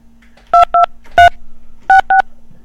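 Telephone keypad dialing produces five crisp electronic tones in an uneven rhythm: a pair, a single, a pause, then another pair, over a faint steady hum.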